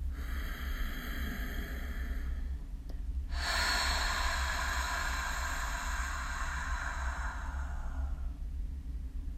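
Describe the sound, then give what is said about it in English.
A person takes a deep breath in through the nose, then lets out a long, audible, breathy exhale through the mouth that slowly fades away, over a low steady hum, with no talking. “take some deep breaths in through the nose and out through the mouth with a long exhale. And make a little noise on that exhale so it would sound like this.”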